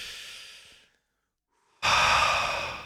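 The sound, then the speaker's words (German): A deep breath is drawn in. A softer breath fades away first, then after a brief silence comes a loud, sustained inhale that gradually tapers off. “So, noch einmal einatmen.”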